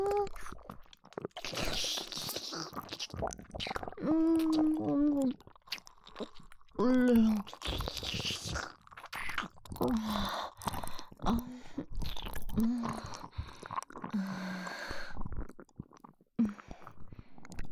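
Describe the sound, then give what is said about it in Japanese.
Wet kissing and licking mouth sounds, many soft smacks and slurps in an uneven rhythm, with short voiced murmurs and breaths between them. “キスしちゃったね。緊張してる？”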